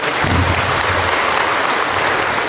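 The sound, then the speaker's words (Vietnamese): Loud, dense applause from a church audience during a service, steady, even clapping from many hands filling the whole moment without a break. “Mời thưa anh chị em, phải vỗ tay thật to lên nữa mới đúng hơn nữa, thưa anh chị em.”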